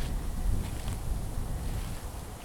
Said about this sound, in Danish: Nogle af dem har stadig visne blade på sig, og de risler i vinden,